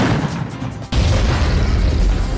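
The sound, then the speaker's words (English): An ATM blown up with dynamite by thieves in Philadelphia: a sudden loud boom that breaks into a sustained, noisy roar. “In Philadelphia, thieves used dynamite to blow up an ATM.”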